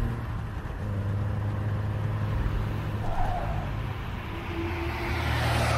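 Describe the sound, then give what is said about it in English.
A car approaches along a road, heard as a low, steady engine drone with road noise that swells toward the end. “Listen for approaching cars, hear which side they're coming from, and hold to the opposite side. Opposite? Well, how will I know? Shh. Here comes one now.”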